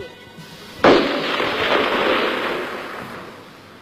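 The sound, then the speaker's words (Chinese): A burst of gunfire in a staged scene: one sharp, loud crack at once swells into a dense crackling roar that slowly fades over a few seconds. “一串来自黑暗最深处的子弹击中了一个年仅15岁的小号兵。”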